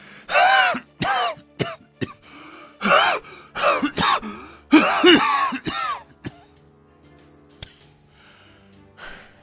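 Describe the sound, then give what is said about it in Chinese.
A voice actor imitates an emperor's coughing fit and wheezing chest. Many harsh, throaty coughs and gasping breaths come in quick clusters, loud at first, then thinning to a few faint catches. “崇安帝咳了起来，他一手扶在书案上，胸腔好似个破风箱一般呼哧个不停”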